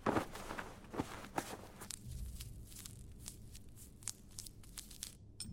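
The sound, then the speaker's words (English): Someone unwraps a bandage from a wounded leg, making a quick run of tearing, crinkling rustles along with scuffing, shuffling steps. It is fairly quiet and nobody talks. “She then walked over to Mark and unwrapped his leg.”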